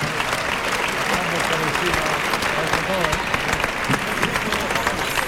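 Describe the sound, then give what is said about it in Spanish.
A bullring crowd applauds the matador Roca Rey at a bullfight after a cowardly bull refused to fight. Dense, continuous clapping holds at an even level throughout, with talk running beneath it. “Bueno, pues hay palmas a la voluntad de Roca Rey que se ha estrellado literalmente.”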